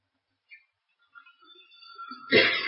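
A single sneeze bursts out loudly and abruptly near the end, after a few faint, scattered quieter sounds.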